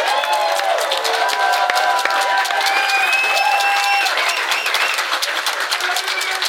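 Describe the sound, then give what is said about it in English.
A convention audience at Geeklycon 2023 gives a round of applause: continuous loud clapping mixed with cheering and shrill, gliding whistles throughout. “Let's give another round of sound for Michael.”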